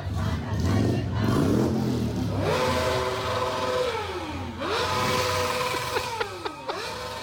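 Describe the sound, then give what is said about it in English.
A motorcycle engine revs at a street protest, with several loud rising and falling revs over continuous crowd noise. “What's the car? Motorcycle? I'm not quite sure. Whoever was revving. Oh, no, that was a motorcycle.”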